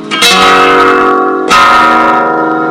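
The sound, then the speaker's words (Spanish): Two bright strummed chords on a small acoustic guitar, each struck loudly and left to ring out with a full, sustained tone. “lo que suena esto, lo que suena esta violita, linda, medio concierto”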